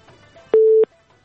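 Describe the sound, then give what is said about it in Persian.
A busy tone sounds on a phone line after a weak, hard-to-hear call cuts off: one short, steady, loud beep against near silence. “فکر میکنم تماس بانو امینی متاسفانه قطع شد به خاطر از اینکه خیلی صدایشان بر ما جور با جور نمیومد”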